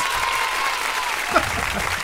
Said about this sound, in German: Herzlichen Glückwunsch, Applaus.